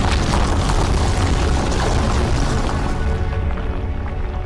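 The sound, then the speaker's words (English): An earthquake rumble effect: a loud, continuous, deep roaring tremor that holds steady throughout and eases slightly toward the end. “An earthquake caused the very ground beneath his feet to tremble.”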